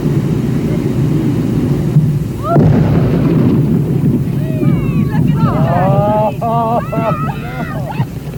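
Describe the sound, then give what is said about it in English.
An explosion blows up a decomposing whale carcass. A muffled blast comes early on, rising out of steady wind noise, and high chirping sounds follow over the rumble. “Chunks. Our cameras stopped rolling immediately after the blast.”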